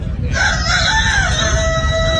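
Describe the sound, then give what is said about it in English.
A person imitates a rooster crowing: one long, strained cock-a-doodle-doo that starts after a brief pause and holds its pitch to the end, over a low background rumble. “That literally sounded like a rooster.”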